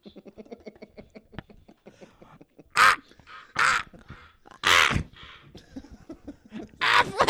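Crows cawing on a beach: several harsh, loud caws in separate bursts, with quieter gaps of low sound between them.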